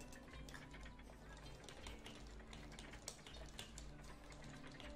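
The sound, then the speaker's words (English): Typing on a computer keyboard, many soft rapid key clicks, very faint, over a steady low hum with no talk. “So I'm going to type all of this exactly into the Discord, okay?”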